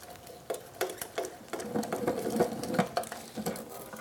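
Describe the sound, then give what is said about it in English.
Quick, irregular clicking and rattling from a speed wrench with a 7/16 socket spinning out oil pan bolts during a small block engine teardown; many sharp ticks run on steadily without talk. “although we can use a ratchet to remove all the bolts for our oil pan, we're going to use this speed wrench. It'll make it go a lot faster.”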